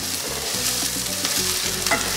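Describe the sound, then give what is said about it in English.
Minced garlic sizzling in a frying pan, a steady, loud frying hiss with scraping stir sounds throughout and no voices. “Next thing you want to do, add garlic. All your minced garlic right there.”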